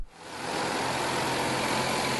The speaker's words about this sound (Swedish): Han heter Gordon Wassenaar och honom fick vi en åktur med i hans traktor.